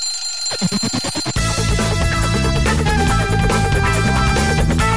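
An alarm clock rings as a wake-up signal, starting with about a second of rapid, rattling bell pulses after a brief silence, then giving way to a loud, sustained dense sound that fills the rest.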